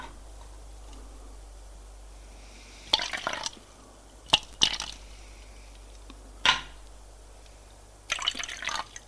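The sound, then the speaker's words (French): Liquid is poured from a bottle into several glasses, one after another. A few short gurgling bursts are separated by quiet pauses, with a couple of sharp knocks between them. “et il remplit les verres. En donnant à chacun.”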